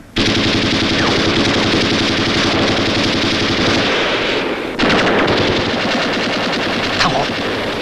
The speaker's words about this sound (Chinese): 机枪，打！